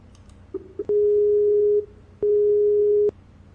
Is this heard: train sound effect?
no